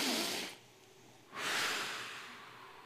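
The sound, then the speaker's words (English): Deep inhalations during a guided breathing exercise: two long, airy breaths drawn in, the second louder and more drawn out, with no talking. “just kind of breathe in”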